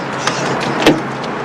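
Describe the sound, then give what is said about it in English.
Rear hatch of a car being opened: a light click and then a louder latch clunk over a faint steady hiss. “She trudges around to the back of the car and opens the hatch.”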